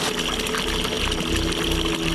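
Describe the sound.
Water flowing by gravity through the irrigation channels of rice terraces fed from Doi Inthanon, a steady, dense rushing and trickling that continues evenly throughout.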